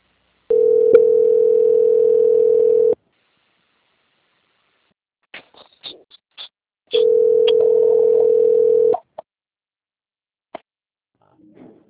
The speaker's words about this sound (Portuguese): Só aguardar em linha, tá? Que eu vou transferir o contato.